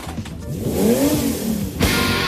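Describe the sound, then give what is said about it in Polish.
A V8 car engine of over 6 litres and 710 horsepower revs loudly, its pitch climbing, then a sharper burst of noise near the end. “pod maską ma silnik V8 o mocy 710 koni mechanicznych o pojemności ponad 6 litrów.”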